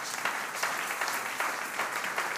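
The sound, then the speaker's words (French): A church audience applauds after a Gospel reading at a French-language service, with steady dense clapping and small swells of louder bursts throughout. “Merci d'acclamer la parole du Seigneur.”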